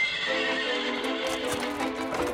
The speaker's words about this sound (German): treib die Pferde an!